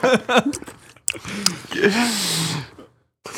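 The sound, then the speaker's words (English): Wet mouth sounds of someone eating and sucking on a mouthful of cookie butter, with smacking and squishing mixed with drawn-out voiced murmurs, then a brief pause. “Shove that cookie butter in your mouth hole and give it a few little sucks. I'm going to do it.”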